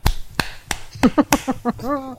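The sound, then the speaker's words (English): Sharp, crisp hand claps, three quick dry smacks at an uneven pace, followed by voices. “I'm going to give you the clap. I mean, a clap.”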